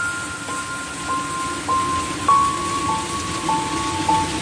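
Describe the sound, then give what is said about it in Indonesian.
Rain falls fairly heavily as a steady, dense hiss at a moderate level, continuing evenly for the whole stretch with no voices. “Dari cahaya lampu itu bisa kulihat rintik hujan yang kini turun cukup banyak.”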